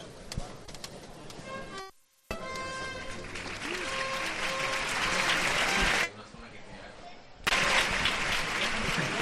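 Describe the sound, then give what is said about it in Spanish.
The Spanish national anthem, the Marcha Real, plays at the Santuario de los Gitanos with sustained band tones amid crowd noise and clapping. Voices are heard over the music, and the sound drops out briefly near the start. “suena ahora mismo la marcha real. Sí, Manu, sí. Magnífico el sonido que nos llega desde el Santuario de los Gitanos.”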